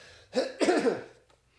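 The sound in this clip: Throat clearing by a man whose throat is coated after drinking coffee: a rough, raspy two-part burst, with a short catch followed by a longer gravelly rasp, fairly loud and alone.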